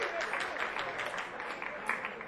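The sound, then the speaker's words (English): Faint applause from a small audience at a live music concert: scattered, separate hand claps in a loose, uneven patter, kept quiet throughout. “Give us a round of applause for coming out and supporting this music.”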